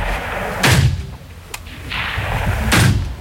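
Gunshots at a shooting range: two heavy, booming reports, spaced about two seconds apart, with a sharper, fainter crack between them, all over a constant background noise.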